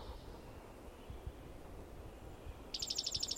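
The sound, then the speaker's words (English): A bird sings softly near the end, a quick high trill of rapidly repeated notes rising out of a quiet, hushed background. “bird singing softly”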